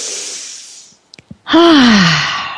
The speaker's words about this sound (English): Okay, so let's all take a deep breath.